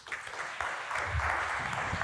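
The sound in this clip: Church audience applauding to welcome a speaker to the front, a steady wash of clapping that holds at an even level for about two seconds.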